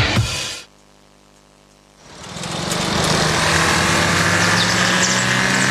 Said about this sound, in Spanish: El nuevo Audi Q5, con motor 2.0 TFSI Mild Hybrid, fluye con precisión y eficiencia.